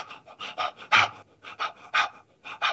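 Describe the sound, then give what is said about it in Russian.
Rhythmic belly breathing of the kind used when playing a jaw harp: many quick, breathy pants in a steady pulsing rhythm, with some breaths stronger than others and no talking. “Я животом вот накачиваю воздух, да, вот как это выглядит уже в игре на варгане.”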